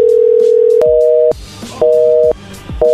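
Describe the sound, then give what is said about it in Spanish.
Telephone disconnect tone after a call is cut off: a steady electronic tone, then a two-note tone that pulses on and off in roughly half-second beeps, loud with no voices. “No, está cortando la llamada.”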